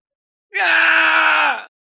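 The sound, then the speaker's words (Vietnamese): A creature being chased by a large black dog deep in a forest lets out an anguished scream: a single sustained, high, tonal cry lasting about a second, loud and alone, with a slight drop at the end. “Tại chỗ sâu trong rừng cây, truyền đến tiếng kêu thảm thiết của Ngân Huyết Sông Hoàng, bị một con đại hắc cẩu đuổi cho lên trời không đường, xuống đất không lối”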